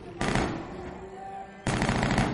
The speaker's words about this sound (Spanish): ¿Qué demonios es eso? Em, debe de ser una boda en algún sitio cerca. En las bodas les gusta disparar aquí.